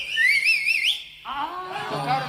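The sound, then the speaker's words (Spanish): A man whistles a quick, warbling phrase with a wavering pitch that lasts under a second. After a brief dip, other tonal sounds and noise follow. “Chiflido tiene el hombre.”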